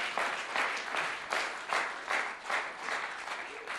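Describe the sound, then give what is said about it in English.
A church audience claps their hands to the Lord during a sermon, producing sustained applause that swells in regular pulses at a moderate level. “If that's your testimony, why don't you clap your hands to the Lord today?”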